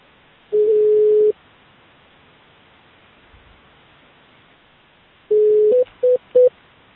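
Telephone tones sound as a call is dialed over faint line hiss: one steady tone of almost a second, a long gap, then a longer tone followed by a few short beeps.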